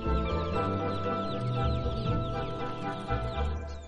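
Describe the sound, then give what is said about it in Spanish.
Chicks cheep as someone plays with them on a farm by an olive grove. Many quick, high chirps overlap continuously, fairly faint, over a low steady hum. “sonríe mientras juega con algunos de los polluelos.”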